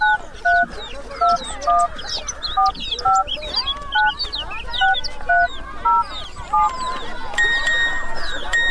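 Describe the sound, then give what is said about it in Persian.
A mobile phone's text message alert for arriving phone credit plays a repeating pattern of short paired electronic beeps, then closes on a longer, brighter sustained tone, over a cluttered background of other sounds. “اوه اینا پیام تام آمد که کردت برد رسید.”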